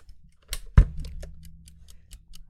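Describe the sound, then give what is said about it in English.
Ticking of a cheap replacement timer bought online: a couple of sharper clicks, then a steady run of quick, faint, evenly spaced ticks. “What you're hearing is not the time timer. I lost both time timers, and I bought a replacement on Amazon”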